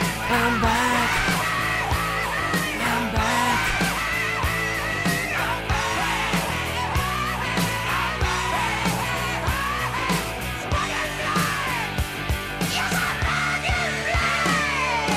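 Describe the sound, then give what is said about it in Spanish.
People yelling and shouting within a loud, dense hard rock track, their voices riding over driving guitars and pounding drum hits that continue steadily throughout. “Gente gritando cosas.”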